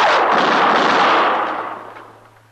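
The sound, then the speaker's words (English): A single loud gunshot in a drama, heard as a heavy blast that rolls on as a broad rumble and slowly fades over a couple of seconds. “He's in that alley, Mr. Dillon. I seen his gun flash.”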